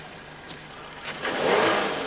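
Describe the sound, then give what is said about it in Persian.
A car arriving: engine noise swells midway into a louder, steady mid-pitched drone with a soft hiss, building from a quiet background and holding to the end, with no voices. “صدای ماشینه.”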